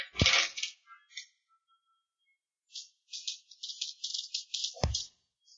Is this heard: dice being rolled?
yes